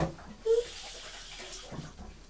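Water splashing as a young child is rinsed in a bath, a soft, steady wash of noise with a short louder slosh near the start and a faint bump toward the end.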